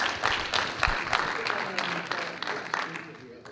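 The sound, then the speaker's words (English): An audience claps to welcome a guest speaker at a morning church service. The dense, sustained clapping is made of many sharp hand strikes, and a voice talks over it. “So will you guys once again put your hands together and welcome Gary Larson as he brings the Word this morning.”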